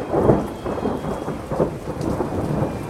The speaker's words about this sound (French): Lorsqu'il quitte la scène, l'orage éclate. Une pluie diluvienne, pire que toutes celles qui ont précédé, s'abat sur les festivaliers.